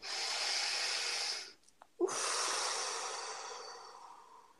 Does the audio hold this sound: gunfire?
no